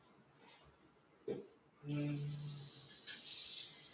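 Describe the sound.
Water runs from a tap, a loud steady rushing hiss that starts suddenly after a brief thump and continues without a break to the end.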